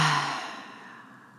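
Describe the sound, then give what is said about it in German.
A deep breath is let out through the mouth as a soft, breathy sigh. It starts strongest and fades steadily over about a second and a half, with no talking. “nimm einen tiefen Atemzug die Nase ein und über den Mund ausatmen.”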